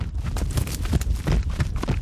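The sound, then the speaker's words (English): Hooves of an Arabian horse clip-clop in quick succession as it is run in a circle on a lead rope, picked up by microphones mounted on its hooves; many sharp, loud thuds follow in an uneven galloping rhythm. “I recorded an Arabian horse. Arabians have a different gait than thoroughbreds. And I put four wireless microphones on each hoof.”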